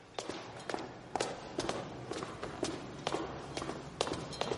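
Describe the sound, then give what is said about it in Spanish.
Footsteps of two people climbing a staircase, a butler leading and a man following: a steady, evenly spaced run of firm, clacking footfalls at roughly two per second, with no voices. “El mayordomo sube la escalera. Él lo sigue.”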